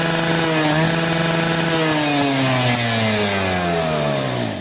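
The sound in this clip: A voice imitates a dentist's drill with a continuous, loud buzzing drone that lasts nearly five seconds, its pitch sliding slowly and steadily downward.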